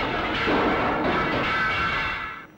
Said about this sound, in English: it can accelerate 4-pound missiles such as this up to nearly 100 miles an hour.